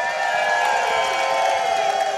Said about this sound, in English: So as we send him in the night as a champion, once again, give a cheer for President Mark Donovan.